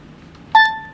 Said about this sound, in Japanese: いやいや誰か来たじゃん何今の、 コンビニみたいな 音しました